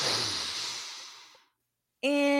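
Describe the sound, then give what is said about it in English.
A group takes a deep breath during a relaxation exercise, a long breathy rush that fades away over about a second and a half, followed by a pause before a voice begins. “Okay, let's take a deep breath in.”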